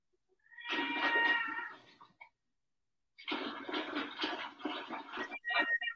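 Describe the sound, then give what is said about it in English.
A cat meows in two drawn-out, wavering cries separated by a few seconds of silence; the second is longer and breaks briefly near its end, fairly loud and alone. “there's a wet cat somewhere.”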